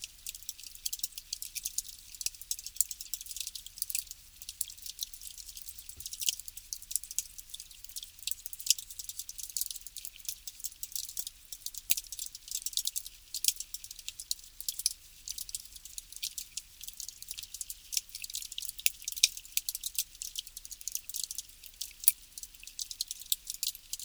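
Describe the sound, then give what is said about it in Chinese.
Faint underwater crackling comes from a pond where bacteria and plants filter the water: a dense, steady stream of tiny high-pitched ticks and fizzing clicks that runs evenly throughout, with no voices. “细菌和植物正在努力地过滤水分，吸收一些营养物质，分解有机废物，这些声音揭示了池塘的化学活动。”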